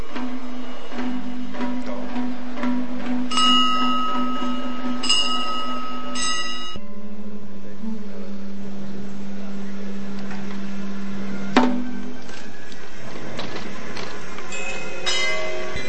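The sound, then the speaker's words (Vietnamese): Buddhist temple bell struck several times during a ceremony, each stroke ringing out in sustained metallic tones that fade slowly before the next one. “ban chung cổ trỗi liên hồi chuông trống bát nhã thỉnh Phật thượng đường.”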